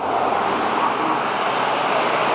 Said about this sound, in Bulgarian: интензивен трафик, тапи и огромен наплив от автомобили към големите градове. Виждате каква е ситуацията към мен? Всички тези коли се движат по автомагистрала Тракия